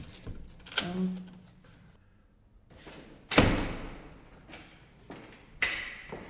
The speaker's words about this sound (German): wichtig ist immer hier der Riegel, ne? Damit niemand Böses reinkommt.